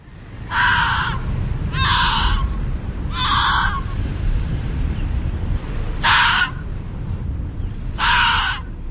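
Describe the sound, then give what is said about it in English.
An Arctic fox gives five harsh, raspy screeching calls, each short and evenly separated, over a steady background hiss. “This is the sound of an Arctic fox.”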